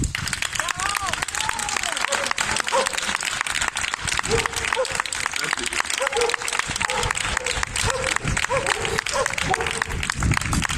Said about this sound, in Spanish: voy a pedir un fortísimo, pero fortísimo, lo más fuerte que puedan vuestras manos aplaudir, para Fayez Badawi.